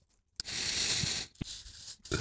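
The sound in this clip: A pen scratches on paper as an answer is written down by hand during a quiz. One steady rasping stroke lasts about a second, followed by shorter scrapes and more soft scratching.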